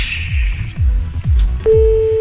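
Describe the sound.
A telephone tone sounds while a call is being placed. A steady electronic tone begins near the end over a repeating low, thumping beat, and no one speaks.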